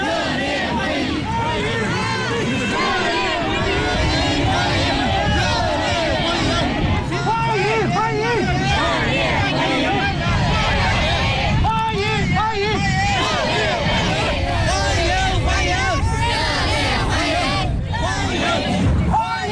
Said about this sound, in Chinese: 华侨华人和留学生代表聚集在道路两旁，挥舞中美两国国旗，热烈欢迎习近平主席到访。